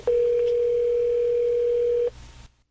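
A telephone line tone as a call is placed, a single steady mid-pitched tone held for about two seconds before cutting off, with faint low background noise.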